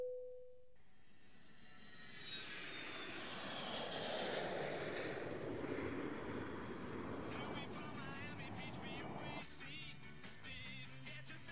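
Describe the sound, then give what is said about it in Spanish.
An airplane taking off: after a brief steady tone, a broad engine roar swells up, peaks loudly and holds as a sustained rushing drone. “The intermediate flight is about to take off.”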